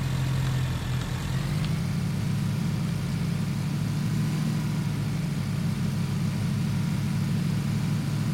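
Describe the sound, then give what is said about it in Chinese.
A motorcycle engine in a video game gives a steady, low droning hum throughout, swelling slightly early on and staying even and continuous with no talk. “哎呦，前面有个摩托，有个摩托，算了，他也打不中我，我也打不中他。”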